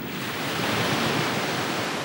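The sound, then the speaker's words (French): Sea waves break on a shore in winter, a steady, dense roar of surf that holds at an even loudness throughout, with no voices. “Il l'entendait battre sur le rivage et gronder au fond de l'horizon, in altum.”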